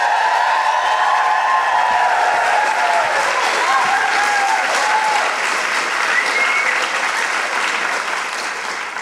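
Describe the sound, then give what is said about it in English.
An audience applauds and cheers as a guest is welcomed to the stage, with loud, sustained clapping and bright whooping voices rising above it. The roar stays full throughout, then eases slightly toward the end. “Please welcome to the stage and make brilliant woohooing noises for the wonderful Cal Wilson.”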